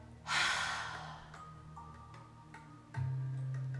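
A single deep exhale during a guided breathing exercise: a soft, breathy rush of air that swells quickly and then fades over about a second, alone and fairly faint.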